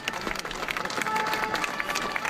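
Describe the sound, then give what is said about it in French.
Applause from a crowd of people cheering the police at night: a dense, ongoing patter of clapping mixed with crowd noise. “Ce son, c'est celui qui nous glace le sang depuis 20 jours. Oh là là, c'est horrible. Des gens qui applaudissent.”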